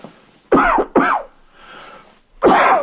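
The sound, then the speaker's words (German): A person coughs after choking on something: three loud, harsh coughs, with a quieter raspy breath between the second and third. “Sorry. Ja, ich habe mich hier verschluckt, Mann.”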